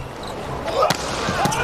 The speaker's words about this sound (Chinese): 现在王斌这发球越来越凶了， 你这打的接的真好，这么重的发球。